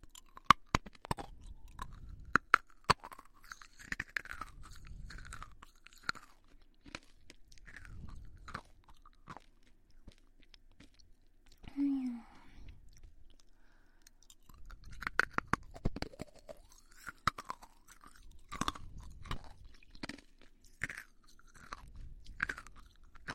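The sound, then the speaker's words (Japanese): Someone eats a sweet food with crisp bites and crunchy chewing, many faint crunches coming in bursts, then a quieter pause midway before the chewing picks up again. “甘くてとっても美味しいです。もっと食べていきます。”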